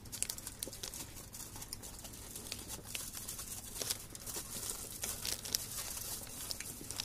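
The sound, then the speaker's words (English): Crinkling of thin aluminum foil or Mylar packaging: a faint, continuous stream of many small crackles and rustles with no clear rhythm. “This is either the thinnest aluminum foil ever, or this is Mylar.”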